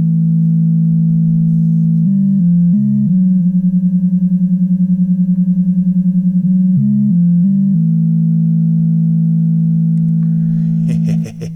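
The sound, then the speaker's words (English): A loud, buzzy electronic tone from a runaway oscillator driven by a function generator holds steady for about eleven seconds, with brief stepped pitch jumps near the start and again later, and a fluttering stretch in the middle. “the function generator will feed the runaway oscillator, and it sounds something like this.”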